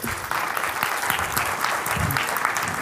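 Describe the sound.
An audience applauds to welcome a pastor and his wife at a morning church gathering, with steady, dense clapping throughout.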